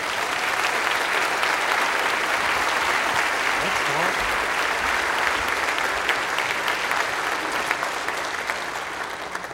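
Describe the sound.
An audience applauds to welcome a guest speaker at a church gathering, with dense, steady clapping that holds for the whole stretch and eases slightly at the end.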